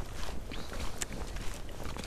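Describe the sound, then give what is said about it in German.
Footsteps of people walking while holding an interview, an irregular run of soft crunching steps mixed with light rustling and no talk. “wir machen also heute ein Interview beim Laufen. Das ist das erste dieser Art.”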